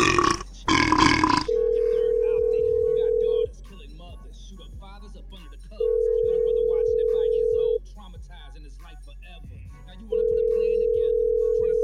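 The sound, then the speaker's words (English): Loud burping at the start: two rough, gurgling belches, then a steady telephone ring tone in three long stretches with quiet gaps between them. “That's gross. Stop burping.”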